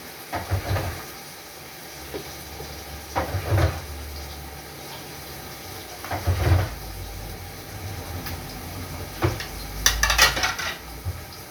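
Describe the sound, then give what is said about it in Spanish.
Small lids clink and clatter while being washed in a kitchen. Several intermittent knocks and rattles rise over a low, steady background hum. “buscamos una tapita y si no tenemos, lavamos las tapitas estas.”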